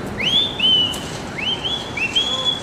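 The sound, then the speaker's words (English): A person whistling on a New York street outside a home on Avenue C: three bright whistles, each a quick upward sweep into a high, steady held note, with short pauses between them over faint background hiss. “I bet you if I whistle”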